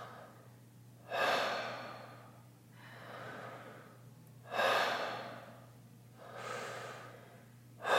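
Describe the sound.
Breathwork breathing in a wave-like belly-to-chest pattern: strong, sharp breaths alternate with softer, drawn-out exhales in a steady rhythm, with no talking.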